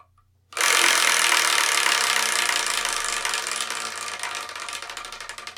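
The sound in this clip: A prize wheel spun by hand, giving a rapid run of ratcheting clicks that starts abruptly and loud, then slowly fades and gradually spaces out as the wheel loses speed.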